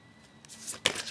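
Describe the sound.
A brand-new deck of playing cards being shuffled: a brief, crisp papery riffle with a sharper snap near the end, quiet and heard alone.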